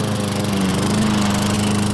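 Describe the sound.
A lawn mower engine runs at a steady pace, giving a loud, continuous buzzing drone with no break and no voices.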